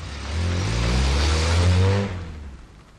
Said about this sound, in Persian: سیما در تاریکی شب سواری را روشن کرده به راه می افتد.